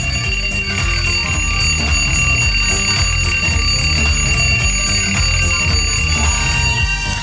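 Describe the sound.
An alarm clock rings to wake sleepers on a Monday morning, a loud, dense metallic jangle threaded with bright, steady high tones that carries on without pause from start to finish, with no voices.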